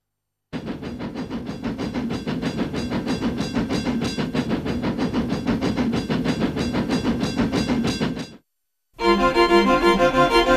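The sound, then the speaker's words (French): A live string quartet imitates the rolling of a train's bogies under the wagons, a steady, relentless chugging pulse of many even beats, broken by a brief silence before a denser, louder burst resumes. “vient doubler le son des bogies. Les bogies, ce sont les chariots sous les wagons. Donc le son des bogies du train tout le long du mouvement.”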